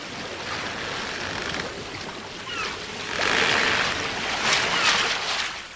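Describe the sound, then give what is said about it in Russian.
Stormy sea waves and wind on a ship at sea, with icy foaming spray over the deck: a steady, loud roar of surf and gusting air that swells stronger through the second half. “Шторм еще более усилился. Он осторожно открыл дверь каюты, вышел и был ошарашен ледяной пеной волн.”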